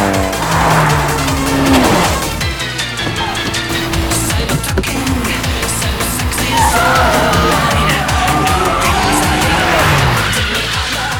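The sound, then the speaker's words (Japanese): Three racing cars charge nose to tail into the first corner, engines roaring loudly and continuously, with tire squeal as the cars brake and turn. “来た。第一コーナー3台繋がって突っ込んでくるぞ。”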